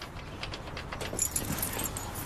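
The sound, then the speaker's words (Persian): Keys jangling at a lock that will not open: many small metallic clicks and rattles in a steady, fairly faint stream throughout. “منم کفریم، اصلا من نمیدونم کلیدا چرا بهش نمیخوره.”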